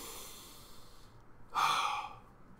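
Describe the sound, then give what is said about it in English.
A person takes a single audible breath, a short, breathy rush of air lasting about half a second. It is quiet and heard alone after a low hush. “You take a breath.”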